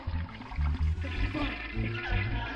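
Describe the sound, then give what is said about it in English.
A toilet flushing, with loud rushing, gurgling water over a low throbbing rumble that holds steady throughout. “Stop flushing the toilet!”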